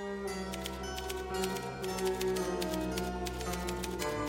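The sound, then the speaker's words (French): Typewriter keys clack as a rhythmic part of an orchestral film score: many sharp ticks and strikes run over sustained tones at a steady level throughout. “On trouve aussi dans les musiques de Morricone une machine à écrire.”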